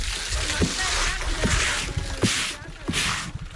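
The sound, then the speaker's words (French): Wet laundry is wrung out by hand at a stone wash house, giving a few squishing, splashing bursts of dripping water over a steady watery background, with a voice talking. “Ensuite, on viendra l'essorer, tout simplement avec les mains. Quelquefois, on s'appuie sur la pierre.”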